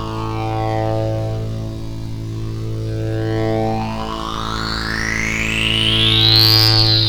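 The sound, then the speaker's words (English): Synthesizer drone driven by an LFO through a big stack of effects, with distortion and chorus. A thick, steady low tone sits under high partials that sweep and climb, turning harsh and chaotic toward the end. “once we get the LFO going, then we can throw on some effects, and boy, we've got a big fat stack of effects to add, which throws the sound into this chaos.”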